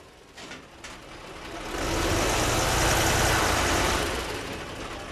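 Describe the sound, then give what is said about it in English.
Armored personnel carriers, tanks and other military equipment being loaded onto trucks in Afghanistan produce a heavy engine rumble that swells to a loud, steady roar midway and then eases slightly, with no talk. “That is the sound of armored personnel carriers, tanks, and other military equipment being put on trucks in Afghanistan.”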